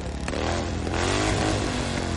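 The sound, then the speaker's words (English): Motorcycle engines rev as bikers gather at a truck stop for a group ride, a short throaty burst whose growl swells in pitch near the middle before settling back. “Bikers are revved up.”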